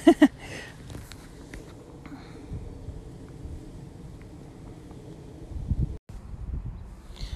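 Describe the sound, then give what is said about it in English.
Wind buffets an outdoor microphone during a walk: a low, rumbling roar runs through the whole clip, with a louder gust at the start, a brief drop-out near the end, and stronger bursts in the closing seconds. “yes, you can hear the wind, but you know what, it's not actually that bad”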